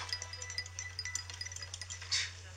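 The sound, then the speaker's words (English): Stirring of a chemistry experiment just after a catalyst is added: faint, rapid clinks and light rattles in a quick irregular patter, ending in a slightly louder brushing swish. “Then, add a catalyst and stir, and...”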